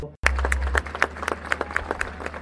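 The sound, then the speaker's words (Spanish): An audience at a national cueca and tonada festival in Valparaíso applauds a tonada song. Dense, energetic clapping bursts in after a brief silence and carries on steadily over a low hum. “Este es el aplauso para la tonada Era una calle empedrada, del autor y compositor Eduardo Yayo Castro, interpretado por Eduardo Yayo Castro.”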